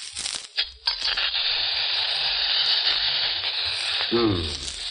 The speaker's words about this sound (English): Now, I'll just crack it, drop it in the hot oil.